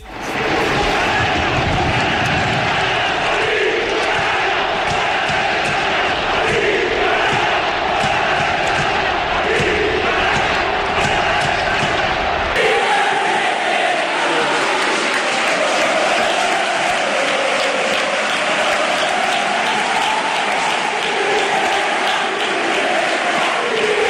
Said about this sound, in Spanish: Se entiende perfectamente el cántico de la afición. Eran 2.600, pero sonaba como si fueran 40.000 en el estadio de Mestalla